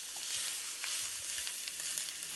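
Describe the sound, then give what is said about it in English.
Greens fry and char in a pan with a steady, dense sizzling hiss, dotted with small crackles and pops throughout. No voices are heard. “Cook until the greens wilt into small, charred, unrecognizable versions of their former selves.”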